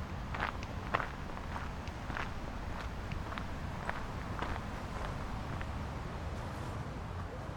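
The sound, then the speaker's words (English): Footsteps cross a wooden boardwalk over reed beds, a steady run of soft thuds at an easy walking pace, fairly faint over a constant low background hiss. “So we've shifted out of a gravel path now, and we're walking across a boardwalk that's over all of the reed beds.”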